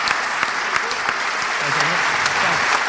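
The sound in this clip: Audience applause welcoming a comedian and financial journalist onto a live comedy show in Edinburgh, a short burst of dense, even clapping at a steady level.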